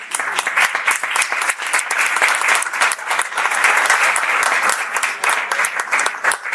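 Audience applause: dense, steady clapping from a crowd, loud and sustained throughout without a pause.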